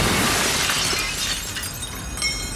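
Glass window pane being deliberately smashed in: a loud, dense crash of shattering glass that fills the whole stretch with bright, splintering noise, fading slightly toward the end and swelling briefly again, with no voices.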